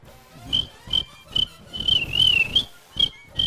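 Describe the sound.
A shrill whistle is blown in a steady rhythm while dancing at a party to music, with many short piercing blasts and one longer wavering blast, over low thudding sounds.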